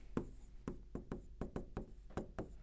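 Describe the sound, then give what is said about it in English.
Writing by hand: a series of short, scratchy strokes arrives in an uneven rhythm, each one a quick, faint scrape with small gaps between. No one speaks. “So let's write this here.”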